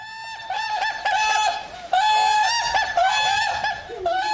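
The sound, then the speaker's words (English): Captive whooping cranes at a breeding site in Baraboo, Wisconsin, give many loud, overlapping bugling honks with strong bright harmonics, a busy chorus of calls that barely pauses. “It's not easy to get whooping cranes to reproduce, but here in Baraboo, Wisconsin, researchers have had success at getting captive cranes to produce chicks.”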